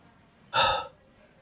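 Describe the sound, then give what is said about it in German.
A single deep, calming breath drawn in sharply, a loud breathy intake lasting under half a second, then quiet. “Atme. Ich atme.”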